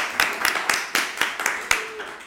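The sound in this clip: Scattered clapping from an audience cheering for a performer, a short run of sharp, evenly spaced claps at a brisk beat, fading to softer ones at the end.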